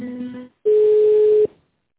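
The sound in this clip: Telephone tones sound while a call is transferred: a buzzy, multi-toned tone stops briefly. A single loud, steady, pure beep follows, then silence.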